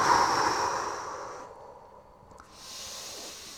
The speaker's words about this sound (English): really allow yourself to energize your body through each breath. We're going to start to really intensify it for just a few more breaths.